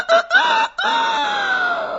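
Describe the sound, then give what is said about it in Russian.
A rooster crows loudly in one long, harmonic call, broken by a brief gap early on, then held as a strained, steady note whose pitch slowly sinks toward the end. “Около 3 часов ночи петух проснулся, взмахнул крыльями и оглушительно пропел свое веселое”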